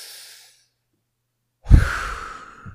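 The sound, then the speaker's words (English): A deep breath drawn in, as a single breathy inhale that starts abruptly after a silent pause, swells, then tapers off. A faint breathy tail comes before the pause. No one speaks. “you can take that energy, transmutate it. Just take a deep breath in.”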